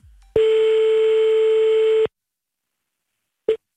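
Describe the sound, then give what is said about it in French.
A telephone tone sounds while a call to an uncle is being placed: one steady, loud, even tone holds for under two seconds, then silence, then a single short beep. “C'est parti, on appelle ton tonton.”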